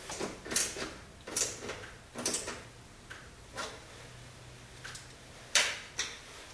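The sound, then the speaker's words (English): Torx screwdriver turning two screws into a soap dispenser housing, giving several sharp clicks and ticks at irregular spacing against a quiet background. “switch back over to the Torx screwdriver for a minute to put the two screws in for the soap dispenser housing.”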